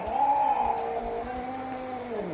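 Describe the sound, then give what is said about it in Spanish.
A domestic cat at home lets out one long, drawn-out yowling meow that holds a wavering, whining pitch for the whole clip, loud and alone with no talk. “Luego, si en casa tienes un gato que hace esto,”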